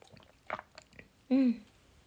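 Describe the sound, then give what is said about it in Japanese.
Soft mouth sounds of someone slowly sipping and swallowing alcohol: a few brief, quiet gulps and clicks, then a short voiced sound. “だから今日もちょっとゆっくりゆっくり飲んでいこうかなと思います。飲みます。”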